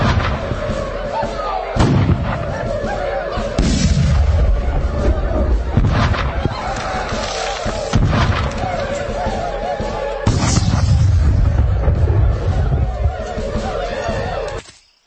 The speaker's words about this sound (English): Captain Hughes, commence firing.